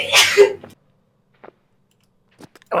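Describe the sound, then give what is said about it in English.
A person sneezes in a bathroom: one loud, sharp sneeze bursts out at the start, followed by quiet, with a few faint short clicks and a brief rustle near the end. “bless you. That's how you just hear sneezing in the bathroom. Sneezing in the background.”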